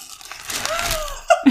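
Crinkling and tearing of the wrapping as a nicely wrapped package is opened, a steady papery rustle that ends in two sharper, louder crackling bursts.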